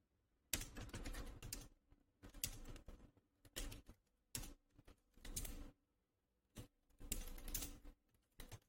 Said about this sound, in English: So, hold on, let me just type this thing up.